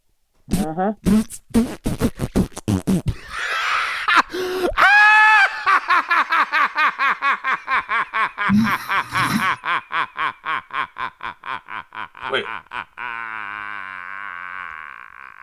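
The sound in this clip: A person's voice imitating gorilla sounds: a few sharp bursts, then a long, breathy run of many rapid rhythmic hoots and grunts, ending in a sustained raspy buzzing tone.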